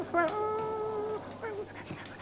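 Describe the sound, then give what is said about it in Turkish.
A dog whines and whimpers in a thin, high, sustained tone, followed by a shorter whine and a few faint yips. The sounds are soft, with no speech. “Bu köpek bana doğru geliyor.”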